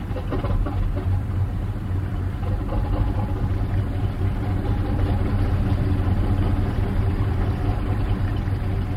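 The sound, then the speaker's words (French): A boat engine runs steadily on a fishing boat heading out to sea, its low, even rumble and throb continuing at a constant loud level throughout, with no other sounds standing out. “S'il n'y a pas trop de vent, on démarre le moteur et...”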